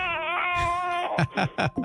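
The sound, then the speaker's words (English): An infant cries in a few short, sharp wails near the end, each burst breaking off before the next. Sustained tonal sound comes before the crying. “My infant in my arms crying.”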